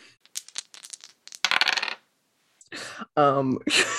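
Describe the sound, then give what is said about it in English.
Dice rolled in a tabletop role-playing game: a quick run of small, hard clicking impacts, then a few louder clattering bursts as the dice tumble and settle. “Please go ahead and roll to run away. So scared. Roll those dice, baby.”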